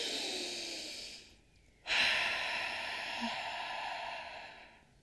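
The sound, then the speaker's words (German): A slow, deep breath during a relaxation exercise, drawn in through the nose and let out longer through the mouth: a soft, airy inhale, a brief pause, then a louder, drawn-out exhale, all faint. “tief und langsam und entspannt einen großen Atemzug durch die Nase einnimmst und noch ein bisschen länger dann durch den Mund ausatmest”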